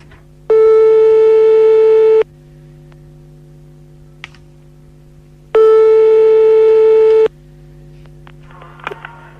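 Telephone ringing tone while a live call is placed: two loud, steady tone bursts of nearly two seconds each, about five seconds apart, over a low constant hum, with a few faint clicks in the pauses.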